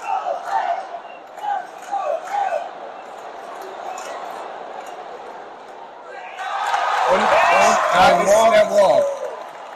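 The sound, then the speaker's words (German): Mets baseball fans cheer in a stadium with the bases loaded. Quieter murmuring and voices come first, then a loud, roaring crowd swell builds and holds through the second half. “Und ihr hört hier gerade im Hintergrund die Mets-Fans.”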